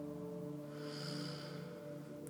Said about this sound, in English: Back nice and straight. Deep breath in.